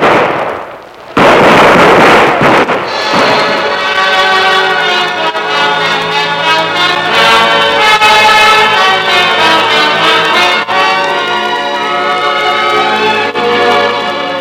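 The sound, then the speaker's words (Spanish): Soldiers fire a volley at Emiliano Zapata at the Hacienda Chinameca. Dense, loud gunfire-like popping and crackling bursts out and keeps going without a break. “Los soldados le presentaron armas dos veces. A la tercera vez, dispararon.”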